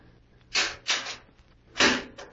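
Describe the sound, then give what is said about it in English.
A safe door being opened: three heavy, scraping clunks, the first two close together and the third after a short pause, each swelling and then fading. “There's a safe behind it. Yes. Now watch. I shall open it and you shall see.”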